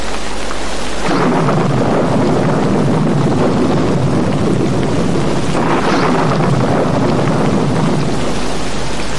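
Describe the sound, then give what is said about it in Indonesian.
Heavy rain pours down in a loud, steady roar with deep rumbling beneath it, continuous and unbroken throughout. “Hujan terus turun dengan lebatnya.”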